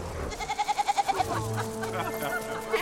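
A white goat among wedding guests gives a single quavering bleat, a mid-pitched call broken into many rapid, even pulses lasting under a second, followed by quieter background sound.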